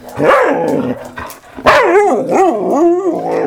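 A small female dog barks and whines in a run of loud, high, wavering yips with sliding pitch. There is a brief lull partway through before the yelping resumes, with no other sounds.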